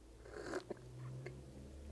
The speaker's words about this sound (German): Ein kleinen Schluck Espresso nebenbei.